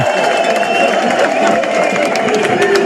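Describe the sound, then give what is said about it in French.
A crowd of spectators roars at Montmartre near the Tour de France finish. The noise is a dense, steady wash of cheering voices and clapping, loud throughout and never dropping away. “Nous filons maintenant à Montmartre avec Marion Ferrer. On entend le public. Allez. La ferveur.”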